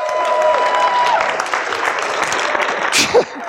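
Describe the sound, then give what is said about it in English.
A seminar audience makes noise, cheering and clapping in a loud, rough wash of sound with a sharp burst near the end. “Guys, make some noise right now and fire me up here. I said, make some noise.”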